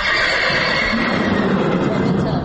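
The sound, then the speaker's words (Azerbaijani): Horses in a stable neigh and whinny in a continuous, harsh, noisy stretch lasting a couple of seconds, with a voice also present. “Tövləyə girən kimi tanış səsə səs verir atlar.”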